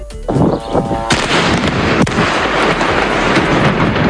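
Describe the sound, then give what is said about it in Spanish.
Explosions from Israeli aerial bombardment over Lebanon form a loud, continuous, dense barrage of booms and rumbling blasts, with one sharp crack standing out midway through. “Este es el sonido de los bombardeos de Israel sobre el Líbano.”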